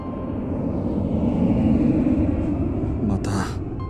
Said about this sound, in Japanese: 戦闘機。 ほんと嫌な音。